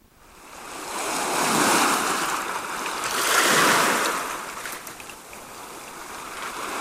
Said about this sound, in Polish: Z gościnnego Szczecina przenoszę państwa nad morze.